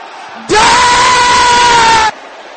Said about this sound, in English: Brothers shouting with holy anger.